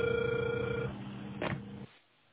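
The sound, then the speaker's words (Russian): Telephone ringing tone on a line while a call to technical support is being connected. One steady tone runs, then cuts off, followed by a short burst of line noise and near silence. “я продолжаю дозвон. Пожалуйста, подождите немного.”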